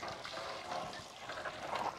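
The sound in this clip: Water flows from a newly drilled well in a soft, steady rushing stream with no breaks. The flow is faint throughout and there is no talking.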